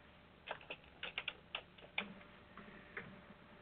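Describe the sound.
Faint clicks of typing on a computer keyboard: around ten light, irregular keystrokes in short bursts with brief pauses, and no voices.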